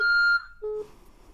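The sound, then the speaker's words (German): Voicemail beep tone: a long steady electronic beep, then a shorter second beep after a brief gap, followed by faint line hiss. “Sie können eine Nachricht nach dem Signalton hinterlassen.”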